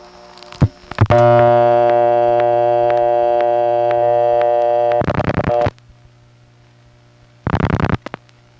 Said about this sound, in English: The ring will immediately trip. You'll hear a hum.